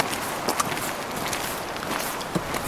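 Footsteps of hikers climbing a rainy mountain trail through fir forest toward a refuge at 2070 metres. Steady, soft crunching steps sound under a constant wet hiss.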